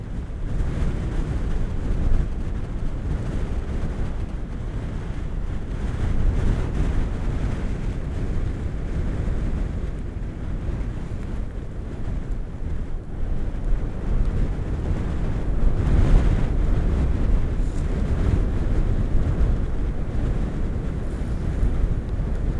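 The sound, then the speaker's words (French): Strong wind on a mountain summit buffets the microphone with a steady low roar. Gusts swell and ease over the whole stretch, with no voices present. “Là, je suis sur le sommet, dans cette ambiance particulièrement ventée.”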